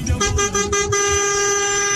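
A car horn honks on a highway: a few short, quick toots, then one long sustained blast that holds to the end, bright and loud over low road rumble.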